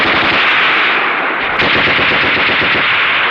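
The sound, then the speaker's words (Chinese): Machine gun fire in a battle with enemy troops, a loud, dense, unbroken stream of rapid shots that keeps hammering throughout with no voices over it. “停！停了射击！停！停了射击！”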